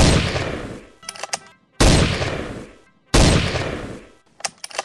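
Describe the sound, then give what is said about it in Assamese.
Three pistol shots ring out one at a time, each a loud sharp blast with a decaying tail, separated by pauses of more than a second. “কোনেও তৰ্কিব নোৱাৰোতেই এটা উদ্ধত পিষ্টলেৰে গান্ধীৰ বুকুত এটা এটাকৈ 3টা গুলীৰে থকা সৰকা কৰি পেলালে।”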